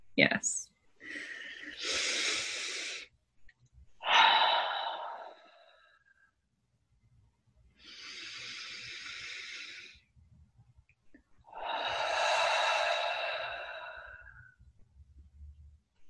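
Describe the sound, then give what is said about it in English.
Slow, deep breaths taken together as a calming pause: a few long, airy inhales and exhales separated by quiet gaps, each swelling and fading over two to three seconds, over a faint low rumble. “how about right now we take like two really deep breaths together right now. If you're driving, maybe pull over for 2 seconds or just take a deep breath while keeping your eyes open.”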